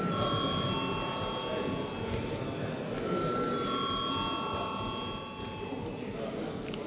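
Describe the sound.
An electric bell rings in the Latvian parliament before a vote, giving sustained, steady ringing tones in two stretches over a faint murmur of background noise.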